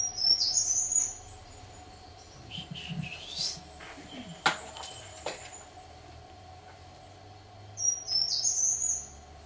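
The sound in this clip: A bird singing its short, repeated territorial phrase: a high, bright, warbled burst at the start and again near the end, with quieter scattered noises in the gap between.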